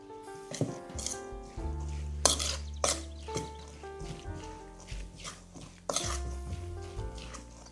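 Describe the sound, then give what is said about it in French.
Herbs and chopped shallot are stirred in a pan with a utensil, making irregular scrapes, soft clinks and a few sharper knocks against the pan. “J'ajoute mon échalote hachée. Je mélange tout ça.”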